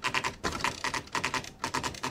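Keys clatter on a 1980s electronic typewriter with word-processing functions. The keystrokes come in rapid runs of many crisp, clicky strikes, separated by brief pauses.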